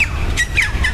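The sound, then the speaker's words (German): Birds calling in a park beside the botanical garden in Perth: a few short, bright squawking chirps that sweep in pitch, heard over a steady wash of outdoor background noise. “ja, vielleicht hört man die Vögel.”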